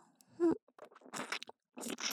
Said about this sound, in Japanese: 中まであなたのお耳を食べてあげる。